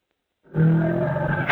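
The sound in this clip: Deep, harmonic roar from an elephant that is under treatment, starting abruptly and holding loud and steady for about a second, with no other sounds around it.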